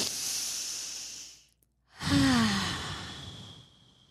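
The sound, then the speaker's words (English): A deep cleansing breath: a long, breathy inhale, a brief pause, then a louder, drawn-out sighing exhale that slowly fades, with no talking. “let's all take a cleansing breath.”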